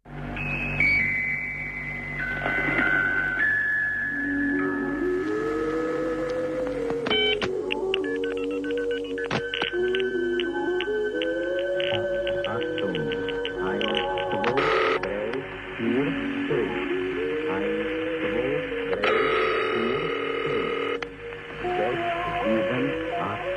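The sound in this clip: A telephone call is placed: a run of stepped electronic dialing beeps is followed by bursts of ringing tones. Sliding tonal sounds run underneath throughout, and no one speaks.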